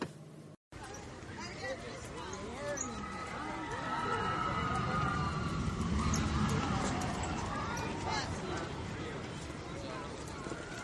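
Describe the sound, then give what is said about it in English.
Roar of the Expedition Everest roller coaster at Disney's Animal Kingdom, swelling partway through, with high wavering cries and people's voices layered over the rumble. “Of course, that's the sounds of Expedition Everest. Now, as you know, I'm not a roller coaster rider, but my family rode on it and was telling me how great it is and just how amazing.”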